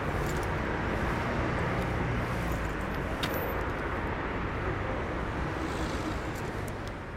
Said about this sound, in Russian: на кавриолете подъезжает к заправке. Выходит из машины